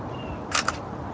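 A camera shutter fires while photographing a brake-cable tool that pulls a bicycle brake cable tight and locks in place: two quick, sharp clicks in close succession over a faint steady hiss.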